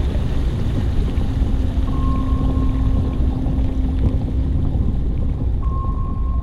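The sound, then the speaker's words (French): A submarine dives into the ocean with a dense, steady low rumble of machinery and water that fills the whole clip. Faint tonal hums come and go above it, and no voices are heard. “Le sous-marin s'enfonce dans l'océan.”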